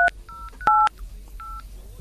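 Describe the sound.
A telephone number is dialed as a few short keypad tones beep one after another, each a crisp two-note tone with small gaps between them, over faint background hiss.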